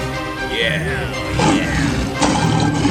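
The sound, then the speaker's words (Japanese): A lion roars loudly while trapped in a hunters' net in a fairy tale, giving a few rough, powerful roaring bursts over a steady background tone. “ライオンは吠え続け、すべての動物たちはライオンが吠えるのを聞いていました。”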